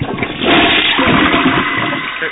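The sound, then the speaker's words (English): Toilet flush played as a sound effect: a loud rush of swirling water surges up after a brief start and pours steadily for about two seconds. “Let me get the toilet flushing.”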